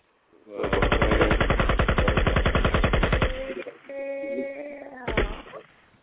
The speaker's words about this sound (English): Shoot the gun for us one time.